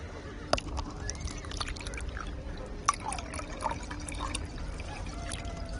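Zamzam water poured out for guests, a soft, steady liquid trickle running throughout, faint overall, with two brief sharp ticks standing out near the start and middle.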